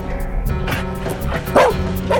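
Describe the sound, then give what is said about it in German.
A chained dog at a house barks a few times in sharp yips and woofs over a steady low hum. “Der Hund.”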